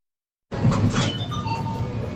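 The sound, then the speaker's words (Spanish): A vending machine sounds as someone pays with a credit card: a few short electronic beeps and light clinks ring out over a soft mechanical background. “Máquina de vending y están pagando con una tarjeta de crédito.”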